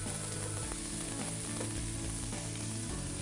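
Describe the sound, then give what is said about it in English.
Green and red peppers sizzle as they fry in a pan, a dense, continuous crackle broken by a few faint stirring scrapes. “Yeah, we'll throw those green peppers, got red peppers. All right, fry it up.”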